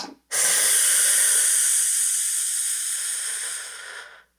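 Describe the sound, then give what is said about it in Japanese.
A slow, steady breath drawn in through the nose during a timed breathing exercise: one continuous airy hiss lasting about four seconds that starts abruptly and tapers off at the end. “5秒吸って、”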